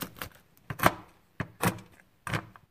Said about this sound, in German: Davon benötige ich 25 Gramm und die Haselnüsse muss ich jetzt noch hacken.